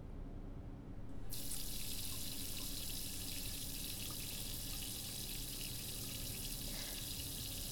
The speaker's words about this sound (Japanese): まずはシャワーからお湯を出して、